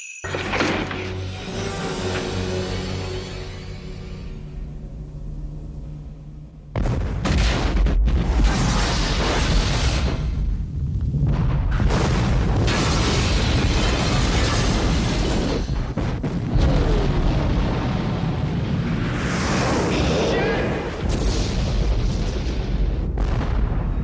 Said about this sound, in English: He's throwing a homemade explosive down the elevator shaft to prevent another RPG from hitting the SWAT vehicle.